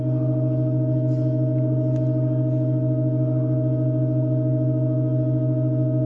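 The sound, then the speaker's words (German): A church organ holds a sustained chord, its keys weighted down by small weights, in a 2023 performance of an extremely slow piece. The layered low and middle tones stay steady and unchanging throughout, with only faint tiny noises above. “Da sind so kleine Gewichte, die die Tasten runtergedrückt halten. Und für jeden weiteren Teil des Stücks werden entweder Orgelpfeifen hinzugefügt oder entfernt. Hier mal ein kleiner Klangeindruck aus dem Jahr 2023.”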